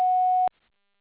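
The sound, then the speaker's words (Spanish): Answering machine beep: a single steady mid-pitched electronic tone with faint harmonics, held for about half a second before cutting off abruptly into silence. “Después del tono, grave su mensaje.”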